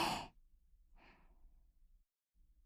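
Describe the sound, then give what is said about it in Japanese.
A deep breath drawn in during a calming breathing exercise: a loud, airy rush at the start, then a softer breathy sound a moment later, with no talk. “深呼吸をして体を落ち着かせましょうか。はい、吸って”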